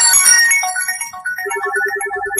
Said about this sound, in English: Sorry, that was my phone.